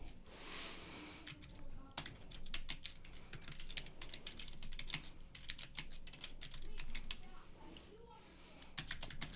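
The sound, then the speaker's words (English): Typing on a computer keyboard: many rapid, irregular key clicks and clacks come in quick bursts with short pauses, steady and fairly faint over a low background. “You don't have to type every word I'm saying to me.”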